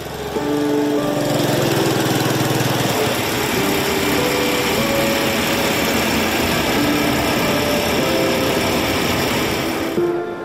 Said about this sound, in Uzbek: Botkenning Samarqandlik qishlog'ida tong sukunatni mirobning mototsikli shovqini buzadi.